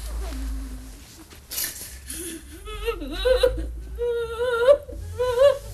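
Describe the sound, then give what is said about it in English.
A woman sobbing in an armchair, with choked, wavering whimpers and cries in broken bursts that grow stronger and more strained toward the end. “He escorts Hilda out, leaving his wife sobbing in an armchair”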